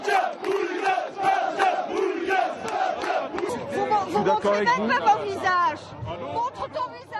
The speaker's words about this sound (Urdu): سرگرم کارکنوں نے تارکین وطن مخالف نعرے بلند کیے اور نازیوں کی طرح سلوٹ کیا جیسے ہی وہ سٹی اسکوائر پہنچے۔